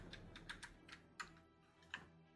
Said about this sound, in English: sitting here with just the keyboard clicks was so tense.